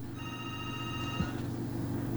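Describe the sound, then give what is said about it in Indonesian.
A telephone rings with a single trilling burst of bright, buzzy tone lasting about a second, then cuts off abruptly with a soft knock as the call is picked up. “Baik, saya angkat telepon.”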